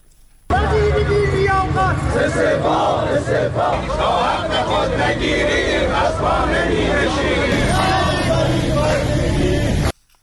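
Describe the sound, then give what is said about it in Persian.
A crowd of retired telecommunications company workers chants protest slogans at a rally in Iran, a loud, dense roar of many voices shouting in rhythm that bursts in suddenly, holds steady for about nine seconds, then cuts off. “بازنشستگان شرکت مخابرات هم در مراکز برخی استان‌ها از جمله خوزستان، گیلان، خراسان رضوی و ایلام دست به تجمع زدند و شعارهای اعتراضی سر دادند”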